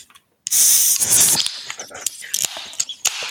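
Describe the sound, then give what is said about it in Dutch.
A can of Guinness cracks open with a sudden loud hiss of escaping gas lasting about a second, then settles into softer crackling fizz and small scattered rustles. “Dat is gewoon het, het, de Guinness openen, zeg maar. Ja, weet je, ik heb hem hier bij de hand.”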